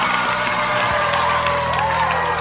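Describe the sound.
Audience applause welcomes a guest onto the stage at a camp entertainment show, a steady, dense patter of clapping with sustained musical tones underneath.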